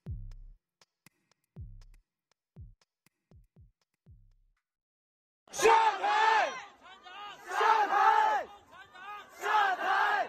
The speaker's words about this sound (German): Nieder mit der KP, nieder mit Xi Jinping, ruft die aufgebrachte Menge im November auf den Straßen von Shanghai.